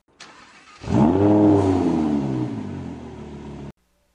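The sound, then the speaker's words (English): A bright yellow Lamborghini sports car revs and drives away, its engine swelling into a loud, deep roar with strong harmonics that climb briefly and then ease. A faint sound precedes the roar, which cuts off abruptly. “And a bright yellow Lamborghini drives away into the darkness.”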